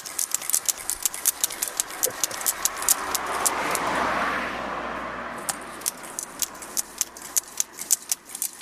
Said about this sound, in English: And some pumping. All right, here we go. This is live action tyre pumping.